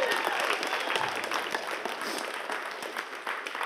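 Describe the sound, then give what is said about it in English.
An audience applauds new members at a church service, a dense, even clatter of many hands clapping at moderate loudness, sustained from start to finish. “Give them a big hand.”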